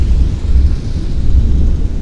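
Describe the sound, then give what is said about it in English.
Thunder rumbles in a thunderstorm under big, thick dark clouds, loud enough to clip the audio: a continuous, heavy, deep rumble that fills the whole stretch without any talk. “And we got thunder clipping the audio.”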